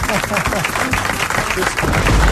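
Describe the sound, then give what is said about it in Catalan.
A studio audience applauds with loud, dense, continuous clapping while people greet each other over it. “Home, un aplaudiment. Bona tarda. Un aplaudiment, eh?”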